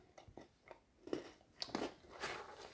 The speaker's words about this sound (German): Und esse einen Keks.